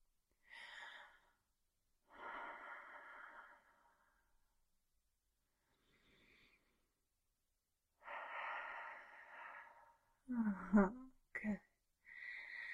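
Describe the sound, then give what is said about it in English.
A person breathing slowly in and out during a guided breathing exercise: several drawn-out, airy breaths separated by silent pauses, ending with a few sharper, louder exhalations close together. “Good. Just breathe in and out.”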